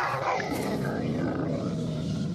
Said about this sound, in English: The lion leaps.